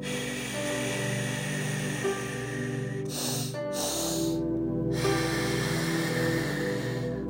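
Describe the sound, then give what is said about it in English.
A breathing technique of two quick inhales through the nose and then a prolonged exhale, the sharp sniffs followed by a long airy breath out, heard without talk over a steady noisy background. “And then a prolonged exhale out. So further the exhale.”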